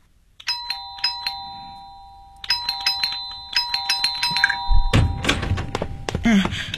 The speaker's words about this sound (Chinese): 你不要老是摁门铃，好吧？